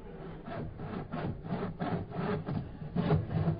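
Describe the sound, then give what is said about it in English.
Sawing through a wooden safe in a cellar: many steady back-and-forth rasping strokes in a quick, even rhythm, fairly loud and gritty, with no voices. “Turn the volume on that saw down. You want to wake the government up?”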